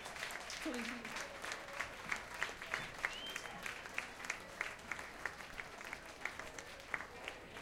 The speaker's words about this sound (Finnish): Itse olisin kyllä taputtanut vähän enemmän.